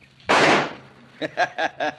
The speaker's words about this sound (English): Not bad shooting, huh